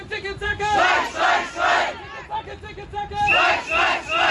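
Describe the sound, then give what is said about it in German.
Striking Charité hospital workers chant loudly at a protest, greeting negotiators outside the Haus der Statistik. Rhythmic, repeated bursts of massed voices rise and fall in a steady cadence. “Lautstark werden die Sondierer von Linken, Grünen und SPD vorm Haus der Statistik in Empfang genommen. Von Streikenden der Charité, die den Verhandlern gleich ihre Erwartungen mitgeben”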